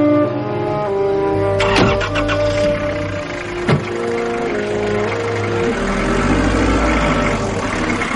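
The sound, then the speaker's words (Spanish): A car engine starting and pulling away among a crowd of onlookers: a steady mid-pitched engine hum is broken early by two sharp clicks or knocks, then builds slightly louder toward the end. “El coche arranca”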